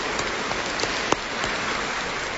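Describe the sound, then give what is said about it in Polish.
Audience applause for the young organisers of a sports event, a steady, dense patter of many hands clapping at an even level throughout, with no voices standing out. “Brawo dla... Oklaski, tak żywo, kochani, tej młodzieży.”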